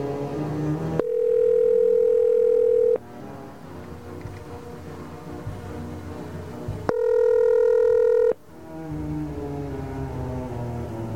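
Telephone tones while an outside line is reached: two loud, steady electronic tones sound alone, the first lasting about two seconds and the second about one and a half seconds, with quieter background noise between them.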